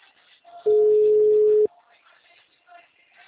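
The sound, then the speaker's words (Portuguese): A telephone tone during a call attempt to a busy number: one steady, mid-pitched beep of about a second, with faint muffled sound before and after it. “Eu vou tentando ligar se ele atender. O número está ocupado.”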